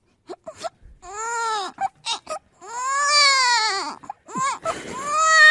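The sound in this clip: A woman's voice imitates a baby crying: a series of short sobbing bursts and longer wavering wails. The wails are loud and alone, with no other talk.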